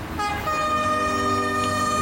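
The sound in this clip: A train horn on a railway line blows one loud, sustained, multi-tone blast that holds a steady pitch for about two seconds.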